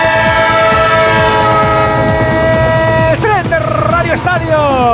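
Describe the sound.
A train sound effect with a horn: a loud, sustained multi-tone horn blast sounds over a steady rhythmic clatter of rolling wheels. The horn holds a level pitch, then dips and wavers.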